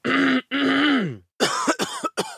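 Persistent, hacking cough from a man who runs a crockery and glassware shop in 1870s Grand Rapids, Michigan. Two drawn-out, rasping, voiced hacks come first, followed by a quick run of shorter, sharper coughs.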